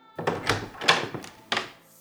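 A door being opened inside a mansion, with a few dull wooden thunks and knocks of the handle and door, spaced unevenly and fairly faint.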